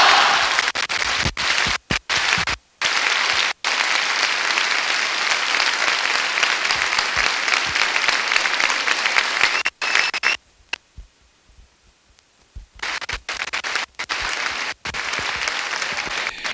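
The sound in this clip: A crowd applauds after the mayor of Sitges finishes his speech. The applause is loud, dense and steady, with brief dropouts throughout. A longer quiet gap falls near the end before the clapping returns.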